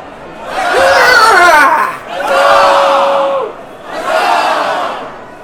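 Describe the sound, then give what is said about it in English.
A stadium crowd at a combat sports exhibition cheers and roars in three loud swelling waves, each rising and falling, with shouting voices blended into the din. “Cheers are up from the back stands, anticipation builds for the event to come.”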